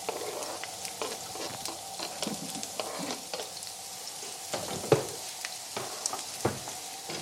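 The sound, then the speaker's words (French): Onion sizzles in hot oil in a wok, a continuous crackling hiss broken by many sharp pops and the scrape of stirring, with no voices. “Voilà que l'huile est prête dans le wok. On ajoute l'oignon. Vous entendez ?”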